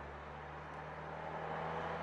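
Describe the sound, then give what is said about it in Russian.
A car speeds along a road, its engine and tyre roar forming a steady, continuous rush that swells slightly toward the end. “Девочка идет за ним, испуганно останавливается на середине дороги. По дороге мчится машина.”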